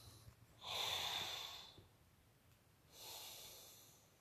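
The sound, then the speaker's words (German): A deep breath in and then out, two long, soft, airy rushes of breath separated by a short pause, faint and heard alone with no voice. “Nochmal kurz tief einatmen und ausatmen.”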